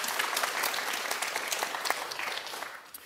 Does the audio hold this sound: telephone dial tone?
no